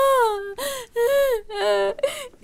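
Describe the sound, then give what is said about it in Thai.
A daughter crying to her father in distress after learning she is pregnant: about five wavering, whimpering sobs in quick succession, high and tearful, with no clear words. “ร้องไห้ทำไม เป็นอะไรหรือเปล่า”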